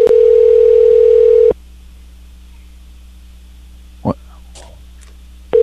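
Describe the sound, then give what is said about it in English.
A telephone ringback tone on a call to a car dealership: a steady, mid-pitched tone sounds for about a second and a half, a long silence follows with one faint click, then the tone starts again at the end. “I was hitting buttons to make him shut up. And now it's ringing again.”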